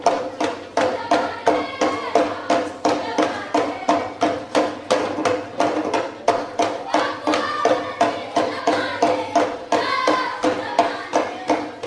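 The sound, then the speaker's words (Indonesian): Three children from Papua play tifa drums, beating out a steady, repeating rhythm of hand-struck hits in regular pulses throughout, moderately loud and unbroken. “inilah penampilan tiga anak hebat yang jauh-jauh datang dari Papua. Mereka akan memainkan alat musik tifa.”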